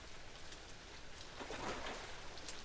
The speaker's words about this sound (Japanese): 一旦雨宿りしよっか。